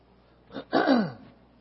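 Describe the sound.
A single short throat clearing, a brief rasp followed by a longer gravelly rumble, fairly faint against a quiet background.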